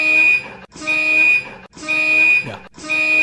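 A building fire alarm blares a loud, high-pitched, harmonic electronic tone in long sustained blasts with very brief gaps between them, sounding about four times without letting up.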